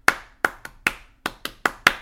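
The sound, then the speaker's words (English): Eight sharp hand claps form a clapping-game rhythm used to grab children's attention: a single clap, then three quicker ones, and the same pattern again, crisp and alone. “a lot of people like to use the clapping game where it's like a clap, like,”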